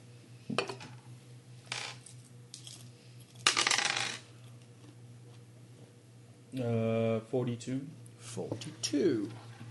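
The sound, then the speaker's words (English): Percentile dice roll during a tabletop game: a few sharp clacks and a short rattle on a hard surface, followed by people talking. “Can somebody roll me a percentile dice and half it?”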